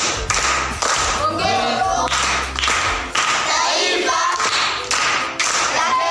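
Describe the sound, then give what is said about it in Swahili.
Applause from an audience for a seventh-grade primary pupil's correct proverb answer at a school event: about six seconds of dense, steady clapping with low thumps mixed in. “Amepata. Makofi kwa shangazi.”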